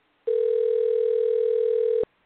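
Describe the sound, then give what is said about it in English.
A telephone dial tone sounds after a number is dialed: one steady, unbroken mid-pitched hum that holds at an even volume for nearly two seconds, then cuts off abruptly, with no voices. “Let me double check the number. Yeah, I dialed the right number.”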